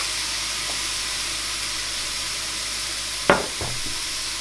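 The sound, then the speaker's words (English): Onions caramelizing with a splash of beer in a frying pan for a steak sandwich give off a steady, even sizzle and hiss, with one brief louder burst of crackle near the end. “if you're making a steak sandwich, to really caramelize your onions, best to add a bit of beer in there, and that'll help with the cooking.”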